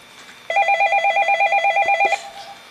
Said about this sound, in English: Let me got a caller calling in.